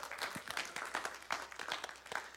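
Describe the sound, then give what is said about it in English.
An audience applauding during a church service, a steady wash of many hands clapping that stays fairly faint and even throughout, with no voices over it. “Let's give Angela a big round of applause, guys.”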